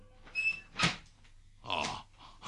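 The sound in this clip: A door is opened: a brief high squeak followed by a few short rattling, knocking bursts, fairly faint and with no voices over them.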